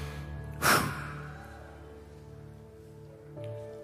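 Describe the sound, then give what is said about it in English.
A church audience takes one big collective breath, a single loud rushing burst early on. It fades into a sustained keyboard chord that holds underneath, with a softer swell near the end. “Someone take a big breath. Breathe in the presence of God.”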